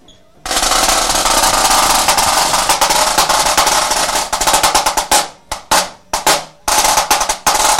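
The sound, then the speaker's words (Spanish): A Kevlar high-tension snare drum is played in a loud, crisp, fast continuous roll that breaks into a run of short, sharp bursts before a final roll. “Que este es un snare. Snare drum. Snare drum de alta tensión. Esto que ven aquí es Kevlar. A ver, entonces enséñanos cómo suena.”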